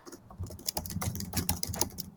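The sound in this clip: Typing on a computer keyboard: many quick, light keystrokes patter in an uneven but steady run, with no voices.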